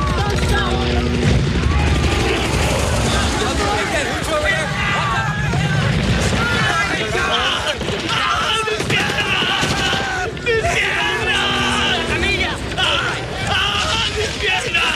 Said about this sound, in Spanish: Un grupo de atacantes barre a tiros la explanada de la escuela y se hace con el control en medio de las explosiones.